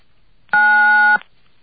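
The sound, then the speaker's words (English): A phone keypad tone sounds as key 9 is pressed to accept a collect call. It is a single steady beep lasting about two-thirds of a second on an otherwise quiet line. “To accept the call, please dial 9 now.”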